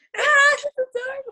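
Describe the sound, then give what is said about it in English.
A baby cries loudly, first with one long, high wail and then with shorter, whimpering cries. “I wonder if y'all can hear the baby crying.”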